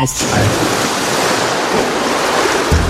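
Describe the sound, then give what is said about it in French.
Water rushing and splashing as it overflows, a loud, steady hissing wash that runs unbroken for about three seconds. “C'est quoi ? C'est de l'eau, c'est ça, c'est de l'eau, j'ai cru qu'il est débordé.”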